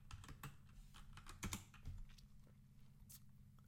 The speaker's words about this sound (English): Now, I type in DK Metcalf in Google Images.